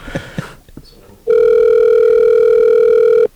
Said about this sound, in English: Ixie, the founder, on the phone, and she's going to answer some questions for us. So let's go ahead and get this dialed up here.